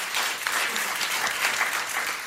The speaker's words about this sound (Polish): Wielkie brawa dla niego